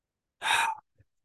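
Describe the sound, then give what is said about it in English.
A man imitates a gasp, drawing one short, sharp, deep breath in, followed by a tiny faint sound. “kind of takes that gasp, that deep breath, like,”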